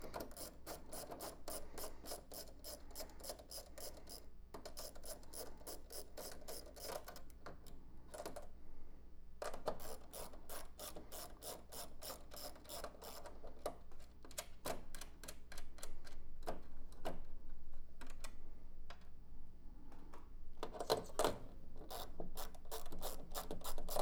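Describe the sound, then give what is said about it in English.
Rapid ratchet clicking from a socket set wrench undoing bolts comes in repeated bursts of many quick clicks, separated by short pauses. The clicks are steady and fairly even in loudness, with no talk. “it turns out, I actually own a socket set that I wasn't using.”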